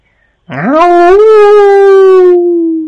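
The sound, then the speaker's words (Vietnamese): A large wolf with pale yellow fur howls close by: one long, loud howl that swoops quickly upward in pitch, then holds a steady, sustained tone for about two seconds alone before trailing off slightly. “Đúng lúc này có tiếng sói hú chuyển tới. Hơn nữa còn ở khoảng cách khá là gần.”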